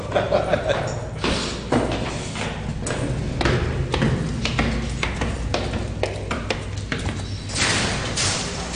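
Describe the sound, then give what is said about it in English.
Footsteps in a brewery stairwell with fermentation tanks on the fifth floor: an uneven run of dull thuds and light taps, steady throughout and fairly loud. “I'm saving a bomb on sound effects here, because we really are in the”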